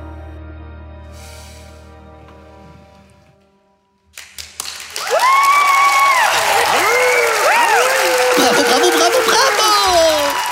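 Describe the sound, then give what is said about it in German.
Stormy applause from an audience erupts after a quieter opening, swelling into loud, dense, sustained clapping with rising and falling whoops from the crowd riding over it to the end. “Stürmischer Applaus belohnt Annalenas Leistung.”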